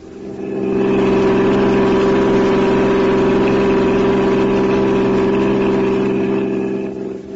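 A car engine running as the car is driven: a constant low, droning hum that swells in at the start, holds steady, and eases off at the end, with no voices.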